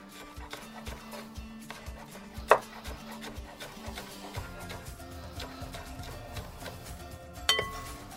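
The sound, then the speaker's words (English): A knife chops spring onion on a board, cutting at an angle. A steady run of many soft, crisp taps keeps an even rhythm, fairly faint, with two sharper clinks standing out. “you can put in some spring onion if you like. I'll put a little bit in there. Again, cutting on it on an angle, like we did with the poke.”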